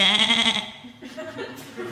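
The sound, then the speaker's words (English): A pet goat bleats, giving a loud, quavering cry lasting about half a second, followed by quieter rough sounds. “That's my pet goat, Chester.”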